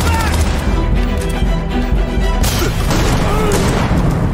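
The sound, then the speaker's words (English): Shotgun fire in a science-fiction video game: heavy booming blasts and crashing impacts over dense, loud game noise, with a few sharper bursts toward the end. “Yeah, the shooting looks solid. Shotgunning.”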